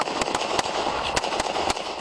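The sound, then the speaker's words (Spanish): Sharp gunshots as three police officers and a state public safety officer open fire on an armed man at a house. Several loud, abrupt cracks come at irregular intervals over a steady background noise. “3 agentes de la policía de Houston y un oficial del Departamento de Seguridad Pública de Texas abrieron fuego. Thomas recibió varios impactos.”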